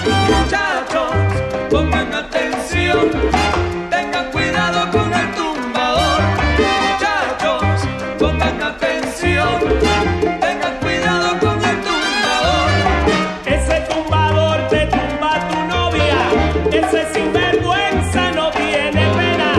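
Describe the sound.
Cuban mambo big band music with a gritty soul flavour, rooted in New York and Havana: a loud, dense ensemble of horns, rhythm and percussion playing continuously with a driving, syncopated pulse.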